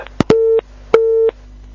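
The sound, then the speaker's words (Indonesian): Busy tone after a phone-in caller's line disconnects, two short, steady mid-pitched beeps, each opened and closed by sharp clicks, heard alone with no talk. “mohon maaf Pak, terputus sambungan teleponnya dan kami belum mendapatkan secara utuh pertanyaan yang disampaikan”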